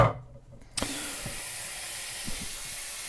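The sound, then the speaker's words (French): Tap water runs into a cooking pot for pasta, a steady broad hiss of filling water that begins after a brief knock and continues evenly to the end. “on va remplir le faitout avec de l'eau”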